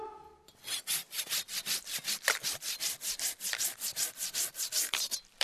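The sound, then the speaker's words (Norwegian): A hand saw cuts through wood in many fast, even back-and-forth strokes. The rasping is bright and steady, with a regular rhythm from start to finish, and no voices are heard. “Gi meg saga!”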